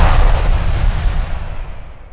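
Firecrackers burst in a Diwali firecracker ad, a loud, dense, continuous crackling roar with a heavy low rumble that holds for the whole clip and thins slightly toward the end. No voices are heard.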